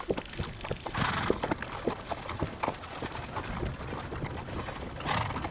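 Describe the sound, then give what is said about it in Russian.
A horse carrying a rider through a forest, its hooves clip-clopping in a steady run of many muffled beats, with faint creaking and rattling of tack underneath. “Лес. На лошади едет отец.”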